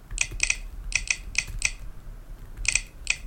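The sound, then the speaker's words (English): A phone's on-screen keyboard clicks as a password is typed with VoiceOver: many short, bright, tonal taps in irregular clusters, with a brief pause before the last few. “Yes, we type your password. Secure edit text.”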